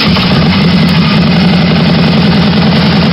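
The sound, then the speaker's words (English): Motorcycle engines rumble at a charity ride, a loud, steady, low idling drone that holds even and unbroken throughout with no talk. “Can you hear it? It's the sound of thunder. Thunder of chrome, steel, excitement, and wishes. To twist your wrist to grant a child's wish motorcycle ride in support of the Children's Wish Foundation will once again thunder by”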